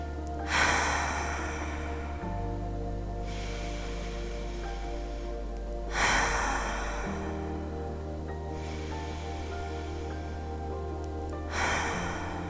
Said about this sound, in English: to start this practice, we will take some deep cleansing breaths together.